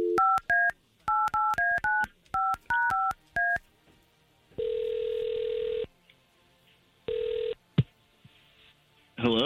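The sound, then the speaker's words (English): A telephone is dialed with many quick touch-tone beeps in short clustered bursts, followed by two long, steady ringing tones on the line. “we're going to try to call him right now.”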